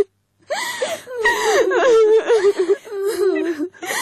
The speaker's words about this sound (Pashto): بس دی مه ژاړه